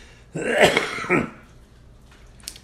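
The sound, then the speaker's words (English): A cough from a man with a slight cold: a throaty burst followed by a second shorter rasp, then quiet breath noise and a faint click at the end. “I'm not enlaced with a whole bunch of cold things. I just got the one little cough.”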